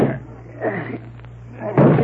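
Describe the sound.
A shoulder rams into a door with a heavy, dull slam near the end, after quieter muffled movement beforehand.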